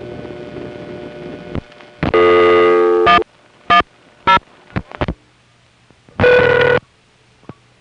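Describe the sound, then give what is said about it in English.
A 1970s telephone central-office number readback device plays over a speaker: a long buzzy burst, then a few short sharp pulses, then another buzzy burst, over a faint low hum. “It doesn't announce the number to Ben. Instead, it plays it on a speaker in the central office and Ben just hears a series of clicks.”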